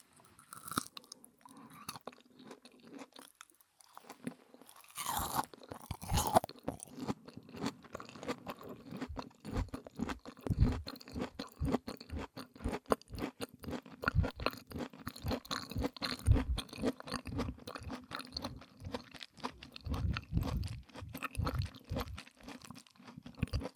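Crunchy chewing of food with broccoli in it: many moist, crisp bites and mastication noises in a steady, uneven rhythm after a quieter opening, with no talking.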